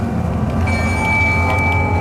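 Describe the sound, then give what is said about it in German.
A city bus driving through Osnabrück gives off a loud, steady low rumble, and a thin high whine joins partway through and holds to the end. “Joel sitzt im Linienbus, fährt durch Osnabrück und dort passiert es ihm regelmäßig.”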